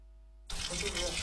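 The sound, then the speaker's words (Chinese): Water gushes into a basin for washing peeled ginkgo nuts. It starts abruptly after a near-silent moment and continues as a broad, steady rushing and splashing. “银杏果采回后去皮，入盆反复淘洗。”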